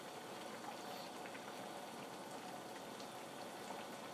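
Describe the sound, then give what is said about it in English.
A pot of liquid on the stove coming to a boil, giving off a faint, continuous bubbling and crackling texture that stays even throughout, with no voices. “All right, so I gotta bring this stuff to a boil. It's kind of at a boil.”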